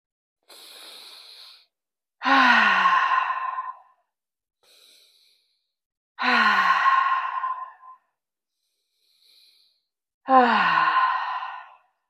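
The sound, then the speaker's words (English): Three loud, deep exhales during a guided relaxation breathing exercise. Each long, breathy rush of air follows a softer, quieter inhale, spaced evenly apart with no talking. “We're going to take 3 deep breaths and exhale loudly.”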